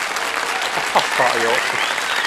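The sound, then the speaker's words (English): Audience applause greets Dame Judi Dench: a dense, steady wash of clapping that holds at an even level, with a voice briefly audible over the crowd. “Double round of applause there, because yes, she is actually from York, Dame Judi Dench.”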